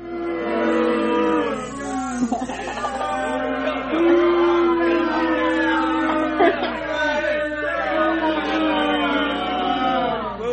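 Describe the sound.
Crowd booing from a played recording: loud, sustained, low droning boos from many voices overlap continuously for about ten seconds.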